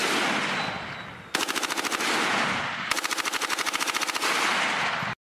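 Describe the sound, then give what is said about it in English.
Rapid automatic fire from an AR-15 rifle with a bump stock, about 14 rounds a second, in two long, fast bursts over steady background noise, stopping abruptly. “Now you're going to hear the firing of an AR-15 with a bump stock on it. Okay, now this is 14 rounds a second at 800 RPM.”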